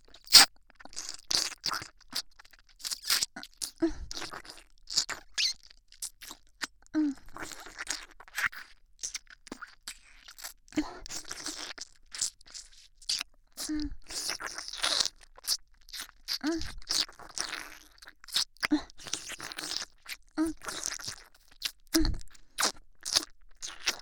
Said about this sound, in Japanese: こちらのお耳も舐めさせていただきます。こちらは激しめに